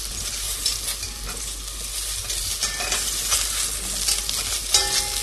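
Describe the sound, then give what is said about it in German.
Loud, steady sizzling of food being seared in a very hot, smoking pan, with crackling spatter and faint stirring scrapes running continuously and alone, with no voices. “Und bratet die gut an.”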